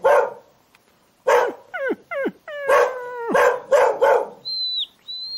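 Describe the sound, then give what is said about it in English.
Very young dogs bark and yelp in a quick series of high calls, several sliding sharply downward in pitch like whimpers, fairly loud and without talk, followed by a person whistling a thin, steady high note. “Look, they're still young, very young dogs. They look sweet, you know. A friendly dog.”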